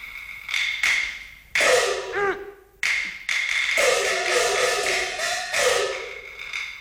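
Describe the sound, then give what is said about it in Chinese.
A metal prison cell door is opened on a sentry's order: a run of sharp knocks and clanks, then a rattling, scraping stretch, with further heavy clanks and a sustained metallic rasp after it. “哨兵，把牢门打开。”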